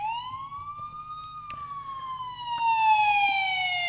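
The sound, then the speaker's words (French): A police car siren wails loudly and without a break during a chase through a narrow, winding street. Its steady, piercing tone climbs slightly, then falls slowly across the whole clip. “La voiture de police la prend en chasse, le bruit strident du gyrophare explose en plein volume”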